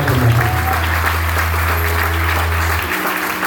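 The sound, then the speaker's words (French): Congregation applauding during a church worship service, steady dense clapping throughout with a sustained low drone beneath it that cuts off shortly before the end. “On va acclamer Jésus.”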